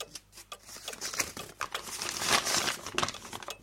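Crinkling paper as a letter is handled, with a quick run of soft crackles, rustles and scrapes that rise and fall in loudness over a few seconds, with no voices.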